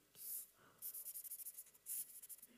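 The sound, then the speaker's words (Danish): A pen or marker scratches on a surface while drawing a stick figure: a few quick, faint strokes, then a run of short rapid scratches and a final longer stroke. “Jeg tegner en meget tvivlsom tændstiksmand, en udvidet version af den.”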